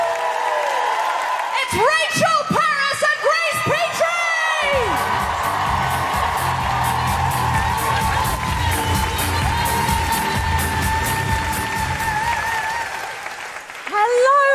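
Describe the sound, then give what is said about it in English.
Audience applause and whooping at a live show in Edinburgh in 2019. Loud rising and falling whoops and shouts ride over steady clapping for the first few seconds, then the applause carries on alone and fades at the end. “Put your hands together. Make extraordinary woohooing noises.”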